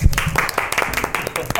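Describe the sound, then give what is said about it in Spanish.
Short, scattered applause from a few hands, mixed with people talking. “Un aplauso para mí.”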